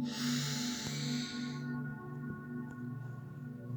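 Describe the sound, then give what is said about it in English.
A deep breath in: a soft, airy inhalation lasting about a second and a half that then fades out, leaving faint, steady low tones sounding beneath. “begin now by taking a really nice deep breath in and out, and in”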